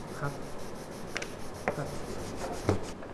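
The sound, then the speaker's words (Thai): Sandpaper rubbing by hand along the grain of a wooden workpiece, a soft, steady scratchy hiss with light stroke-to-stroke swells and no talking. “เมื่อเราขัดไอ้ที่มันสูงต่ำกันเยอะๆออกไปหมดแล้วเนี่ยเราต้องกลับมาที่เดิมคือต้องขัดตามลายไม้ละ”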